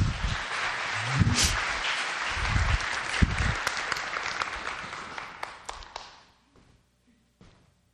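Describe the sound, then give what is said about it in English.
Audience applause greets a woman invited onto the stage at a community church gathering. The clapping is steady and dense for about six seconds, then fades, leaving a few scattered claps near the end. “Everybody, give Donna a hand.”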